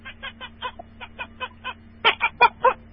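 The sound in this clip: A human voice imitating a rooster, then a hen, as part of a comic mimicry performance. A rapid run of many soft, clucking calls leads into four louder, strained, harsh bursts.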